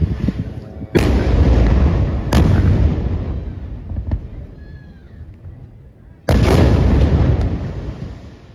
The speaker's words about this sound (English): shelling, high explosive bombs were used that directly targeted the building.